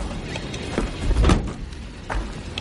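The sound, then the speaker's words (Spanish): A car door is shut with one heavy, low thump near the middle, among a few softer knocks and rustles. “baja y cierra la puerta.”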